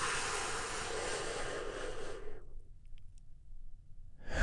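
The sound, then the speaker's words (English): A big deep breath during a guided breathing exercise: a loud, airy rushing hiss lasting about two seconds, then cutting off sharply into near silence, with no talk. “Take another big, deep, healing breath with me right now.”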